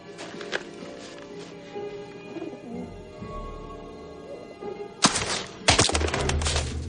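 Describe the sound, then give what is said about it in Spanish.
A pigeon lands on shooting-range targets and coos, giving soft, low cooing calls over a background hum, with louder fluttering bursts near the end. “Una paloma se posa en las dianas.”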